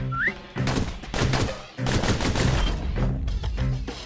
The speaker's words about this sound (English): Those pistols can spit out rounds just as quick as you can pull the trigger.